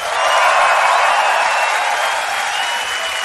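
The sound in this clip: Applause and cheering from an audience welcoming a performer onto the stage, a dense, steady wash of clapping that holds at an even, loud level for the whole stretch with no clear break.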